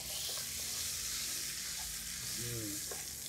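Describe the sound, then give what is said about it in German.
About 40 grams of butter melts and sizzles in a frying pan holding the drippings from a seared beef fillet, a faint steady hiss and crackle with a few light stirring scrapes. “Wir haben hier Butter, die lassen wir schmelzen. Das sollte schnell gehen.”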